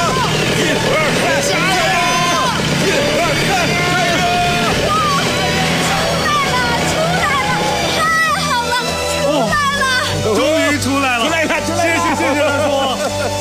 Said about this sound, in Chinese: 好，我再去加点油门。 嗯， 我们都到后面推，再试一次。